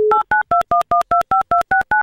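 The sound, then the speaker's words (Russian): An outgoing telephone call being dialed: a short steady dial tone, then ten rapid, evenly spaced touch-tone keypad beeps, loud and clean with no voices. “Попытаюсь сделать финальный дозвон.”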